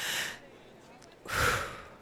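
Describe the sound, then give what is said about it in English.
A person takes a deep breath before standing up: a short airy breath, a brief pause, then a longer, fuller breath that swells and fades. “I'm going to stand up, take one more deep breath.”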